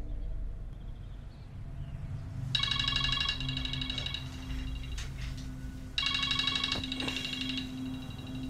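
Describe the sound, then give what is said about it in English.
A mobile phone ringtone sounds in a bedroom as someone wakes and searches for it. Two bursts of rapid, bright, pulsing electronic tones are separated by a short gap, over a low background rumble. “Brian awakens in bed and searches for his ringing phone”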